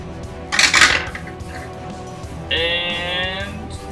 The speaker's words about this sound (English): That's a dice roller? Yeah.